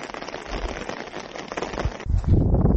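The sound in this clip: Rain falls at a ski resort with snow on the ground, making a steady, dense hiss of drops that grows heavier and louder toward the end.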